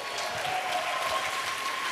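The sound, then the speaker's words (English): Continuous audience applause at a speaker event on management and leadership, a dense, even roar of many hands clapping at once, steady in loudness with no voices over it. “Everyone keep clapping. Monica's doing a great job tonight. Everyone give her a big round of applause.”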